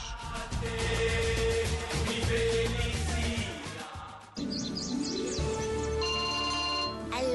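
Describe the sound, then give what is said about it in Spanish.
A phone ringtone for an incoming call on a smartphone plays as a loud, continuous melodic pattern of bright tones. It sounds over a busy tonal backing, with a short dip partway through before it resumes. “¿Papá Noel? ¡Mamá, me está llamando Papá Noel!”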